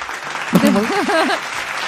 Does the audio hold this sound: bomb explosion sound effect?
no